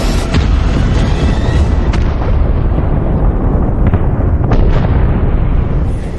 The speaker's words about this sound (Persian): بازرسان در حال بررسی هستند که چه چیزی ممکنه باعث این انفجار ناگهانی شده باشه.